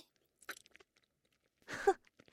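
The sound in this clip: Faint wet chewing and mouth noises, a few small clicks and smacks, then a louder, crunchy burst of chewing and swallowing, with no speech.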